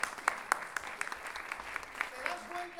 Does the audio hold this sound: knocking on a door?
no

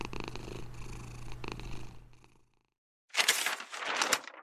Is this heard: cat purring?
yes

